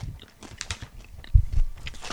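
Crunchy chewing of white cheddar and black peppercorn popcorn, soft irregular crunches and bites with one louder, heavier crunch partway through.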